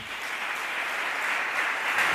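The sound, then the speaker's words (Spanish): Applause for Zaragoza's city sports councillor at a gathering about Real Zaragoza, a soft, continuous clatter of many hands that swells slightly toward the end. “Aplauso para el concejal de Deportes, Félix Brocate”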